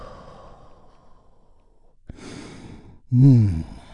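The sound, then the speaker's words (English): A group releases a deep breath together during a guided relaxation. A soft, airy rush of exhaled breath is followed by a short, louder, voiced sigh. “And we begin by taking a big, deep, healing breath all together. Here we go. And release.”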